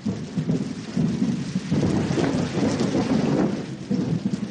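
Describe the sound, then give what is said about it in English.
Thunder rolling through a storm over a mud-hut village, a continuous deep, loud rumble that swells and eases under steady rain hissing throughout. “there's not a lot to do except listen to the thunder dropping 40,000 feet through clouds that spread out for miles.”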